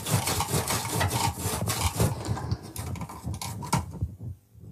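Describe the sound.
A sharp knife pressed hard through firm raw fennel gives a dense, rough crunching and scraping that runs almost continuously, then thins out and fades at the end.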